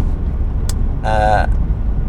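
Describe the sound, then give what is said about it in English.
Diesel van engine humming along on the road: a steady, low rumbling drone throughout, with a short tonal sound rising briefly above it in the middle. “You should be able to hear the gears change and the diesel motor just humming along.”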